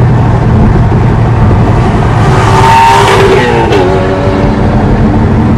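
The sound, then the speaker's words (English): Loud roar of a Porsche Cayman 981 with a Design 911 Valvetronic switchable exhaust during a drive-by, the engine note swelling to a peak as it passes and then dropping in pitch. “Design 911 Valvetronic switchable exhaust, and that thing sounds epic. If you've watched any of the other clips, in fact, I'll chop in and insert a clip here, and you can just sort of get a drive by”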